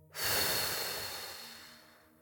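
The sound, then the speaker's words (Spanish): A single soft exhale during a guided breathing exercise, rising quickly and then trailing off gradually over about two seconds, alone and quiet. “Exhala en 5, 4, 3, 2, 1. Suéltala.”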